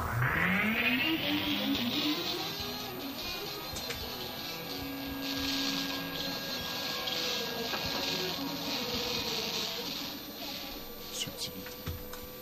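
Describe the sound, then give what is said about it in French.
A washing machine runs with a whine that rises quickly as it speeds up, then settles into a steady whirring drone with a constant hum and faint rattling before it eases slightly at the end. “En avant pour le bruit. Le bruit donc d'une machine à laver.”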